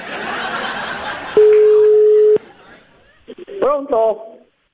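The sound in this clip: Telephone tone heard while dialing someone: a single steady, even tone about one second long, after talk, followed by brief voices.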